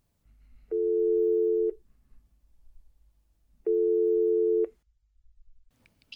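Ringback tone while calling a colleague: two steady mid-pitched tones of about one second each, separated by a pause of roughly two seconds, over a low background hum, with a short noise at the end.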